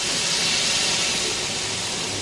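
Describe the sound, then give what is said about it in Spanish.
A Paris express train pulling away from a station platform in the 2016 film Frantz, heard as a steady, loud, broad hiss and rumble that holds evenly throughout. “Sea feliz, Ana. El tren se aleja.”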